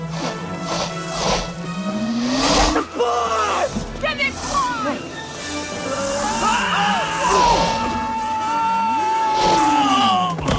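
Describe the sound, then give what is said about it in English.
Whooshes and whip-like swishes from the hoverboard chase in Back to the Future Part II, where Marty McFly is chased around town on a floating skateboard-like hoverboard, mixed with shouting voices. “Ah, yes, the iconic hoverboard scene from Back to the Future 2, where Marty McFly and his equally iconic Nike Air Mags is being chased around town while on a floating skateboard-like hoverboard.”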